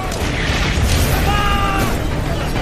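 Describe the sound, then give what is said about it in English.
German artillery shells being fired and exploding in a massive barrage, heard as a continuous loud roar of overlapping booms and blasts with no break. “Three and a half million German shells are fired in just 5 hours.”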